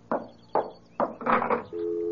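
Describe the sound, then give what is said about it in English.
A telephone dial tone: after a few short bursts of handling noise from picking up the phone, a steady, continuous tone sets in and holds to the end. “Ah, it's the dial tone.”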